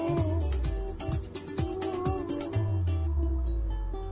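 A cartoon cat meows in a kitten video game app, giving a few repeated, short meows with falling pitch over a steady electronic tonal background.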